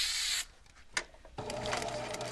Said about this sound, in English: first sprays adhesive on each piece because the material is very slippery